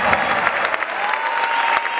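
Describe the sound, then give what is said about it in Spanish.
Audience applause welcomes Guillermo Moreno as he is introduced at a political gathering, a dense, continuous wash of many hands clapping at once, loud and steady from start to finish. “Aplauso, vamos.”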